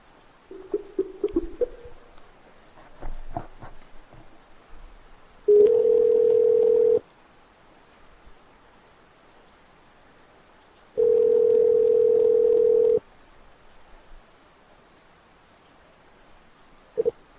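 Telephone line tone after the other party hangs up on a prank call: two long, steady, mid-low tones separated by several seconds of near silence, preceded by faint clicks and scattered rustling.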